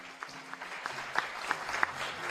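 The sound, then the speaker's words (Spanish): Audience applause fills an auditorium at the start of a school quiz contest: a soft, steady wash of many hands clapping, fairly faint, with a few slightly sharper claps standing out along the way. “Un aplauso para todos.”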